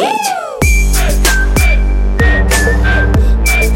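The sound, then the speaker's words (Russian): A whistled melody rides over a song's beat. Its thin, high notes are short and held, above heavy bass and regular drum hits, and the music stays loud throughout. “Хватит свистеть.”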